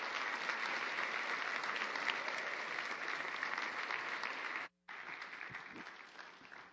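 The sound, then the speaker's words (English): Sustained audience applause welcoming a speaker at a Sunday morning gathering: dense, steady clapping from a crowd, holding an even level with a brief break near the end. “Put your hands together and welcome Corey.”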